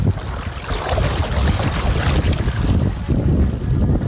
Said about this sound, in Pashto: خو تاسو به دغه د اوبو غږ اورئ، زه ورنږدې کېږم.